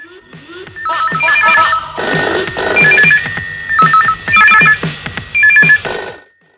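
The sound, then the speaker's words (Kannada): A telephone rings with an incoming call. Its electronic ringtone repeats many loud, bright melodic bursts in a steady on-off rhythm. “ಮೊದಲೇ ಕರೆ ಯಾರ್ದು ಅಂತ ನೋಡೋಣ.”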